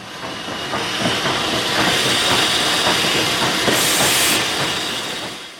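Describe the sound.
Passenger train arriving at a station: a steady rumbling roar with hiss and faint rhythmic clatter that swells, holds, then eases slightly, with no voices.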